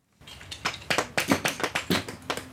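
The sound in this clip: A hammer carefully splits small limestone slabs at a fossil dig in a quarry, giving many sharp taps and cracks in quick, irregular succession, fairly loud with no talk.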